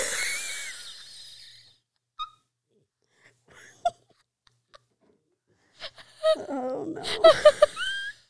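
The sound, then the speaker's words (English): Wheezy laughter: breathy, high gasps and squeaks come in a burst at the end after a mostly quiet stretch with a few faint, brief sounds. “What's with the wheeze, yo? Do we need to get you checked? Are you okay?”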